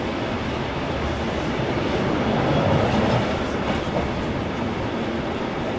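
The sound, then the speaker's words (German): A passenger train hauled by diesel locomotive TMZ 109 sets off on the historic Inland Line route. A dense, continuous rumbling roar with faint rail clatter swells slightly midway and then settles. “Gezogen werden wir von der Diesellok TMZ 109 und wir fahren ab jetzt auf der historischen Route der Inlandsbahn.”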